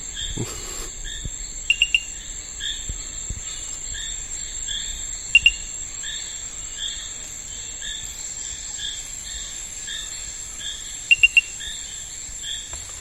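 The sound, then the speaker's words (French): A tree frog calls at night in the forest, giving three separate bursts of three to four short, crystalline high notes over a continuous bed of insect chirping. “Il s'agit d'une espèce de grenouille que j'ai pu décrire en 2013, qui est endémique de l'est de la région des Guyanes. J'ai décrit sa morphologie, son chant, et en fait elle a un chant très particulier. Elle produit 3 à 4 notes très cristallines”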